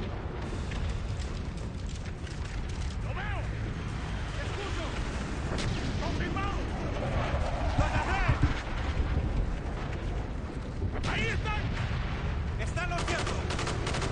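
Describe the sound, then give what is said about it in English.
Gunfire in a video game: many rapid shots and heavy booming bursts that continue throughout, with voices speaking over the combat. “Shooting him in the back. Kill confirmed.”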